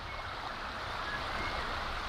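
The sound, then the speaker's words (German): The Oder, the border river with Poland in Brandenburg's Oderbruch, flows gently with a soft, steady wash of water, faint and unbroken. “Sanft fließt die Oder dahin, der Grenzfluss zum Nachbarland.”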